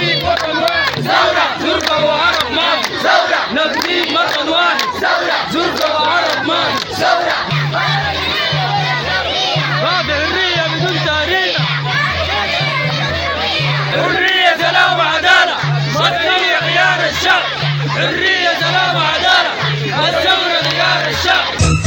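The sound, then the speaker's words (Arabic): Protesters opposing a trial chant slogans in unison, a loud crowd of many voices in continuous rhythmic shouting that stays strong throughout. “وأضافوا في هتافات في هذا الخصوص:”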